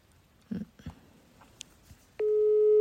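A telephone call connects: a few faint clicks and knocks come first, then a steady, continuous electronic tone begins about two-thirds of the way through and holds unbroken to the end.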